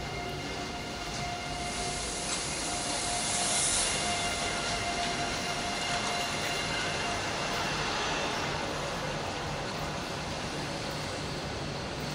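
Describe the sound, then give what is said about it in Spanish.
Two Euromed passenger trains pull into a station, making a continuous broad rumble and rolling roar of wheels on rails that swells slightly early on, then holds steady throughout. “Poco después, bajo un cielo amenazador, entra el primero de los dos Euromed y seguido el segundo.”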